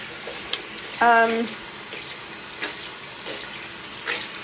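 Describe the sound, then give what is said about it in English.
Running water from a tap wets beauty blender makeup sponges, a steady soft hiss that continues throughout, with a brief voiced sound near the start. “I'm gonna wet my beauty blenders.”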